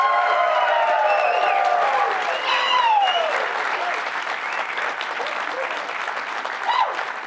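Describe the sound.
Loud, dense applause and cheering from a live studio audience at a BYU men's basketball program, with whistles over the clapping in the first few seconds and a steady roar through to the end.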